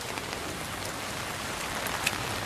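Steady rain falls in a continuous soft hiss with faint scattered drop patter. It is fairly quiet and unbroken, with no voices.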